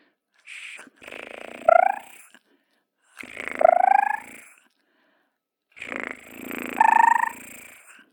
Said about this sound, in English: He had a lovely purr. I've tried to find the purr because I have definitely got a recording of it, but to no avail. But it sounds a bit like this.